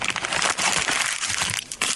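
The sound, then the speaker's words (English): Thick construction paper is crumpled by hand, giving a dense, loud, continuous crackling and crunching that fills the whole two seconds with brief uneven bursts. “That's a lot of crumpling. That's really though. Thick. It's too thick.”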